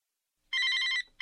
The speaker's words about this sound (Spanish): Un momento, un momento que tengo otra llamada.